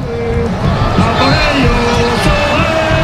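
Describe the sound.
Crowd in Madrid's Plaza de Colón erupting over Oyarzabal's penalty goal, a loud, continuous mass of cheering and shouting with no pauses.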